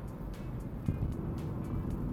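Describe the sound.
Steady low rumble of a car being driven, heard from inside the cabin: a continuous, even road-and-engine drone with no pauses.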